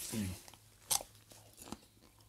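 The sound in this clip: A crisp bite into a freshly picked mini snack cucumber in a garden bed: one sharp, faint crunch followed by soft chewing.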